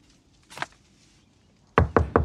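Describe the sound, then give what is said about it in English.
Knocking on a door: one soft tap, then after a pause a quick run of three sharp, loud raps near the end, with nothing else heard. “knocks on a door and holds up a magazine”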